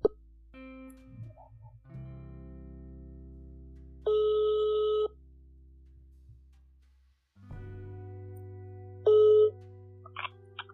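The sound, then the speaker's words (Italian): A phone call being placed, with electronic tones: a steady ring lasting about a second near the middle and a shorter one later, set between softer tonal blips and pops. “a breve farò partire la chiamata”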